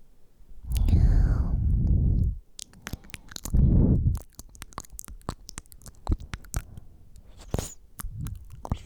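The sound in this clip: Close-up chewing and biting of food in an ASMR tasting, with many crisp clicks and wet mouth sounds, broken by two longer, breathy whispered passages.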